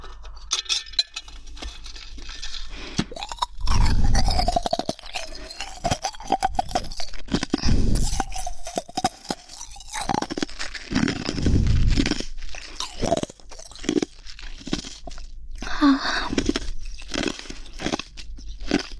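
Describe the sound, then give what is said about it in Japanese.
Ice crunches and is chewed, with a few loud, grinding crunch bursts separated by quieter gnawing and mouth sounds, and no talking. “氷を食べる音を披露したいと思います。”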